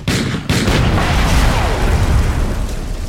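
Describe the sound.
A gunshot fired at a stack of cylinders in the far corner of a room sets off an explosion and fire: two sharp bangs in the first half-second lead into a loud, continuous roar that slowly eases.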